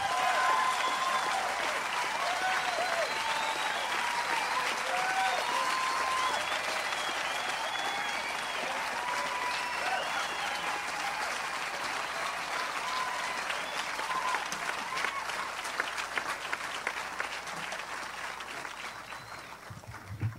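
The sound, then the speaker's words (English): An audience applauds to welcome folk guitarist Doc Watson and Jack Lawrence at the Florida Folk Festival. The clapping is sustained and dense for about twenty seconds, then thins and tapers off toward the end. “So put your hands together and welcome Doc Watson with Jack Lawrence.”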